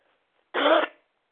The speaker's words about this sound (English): I don't like to cough and everything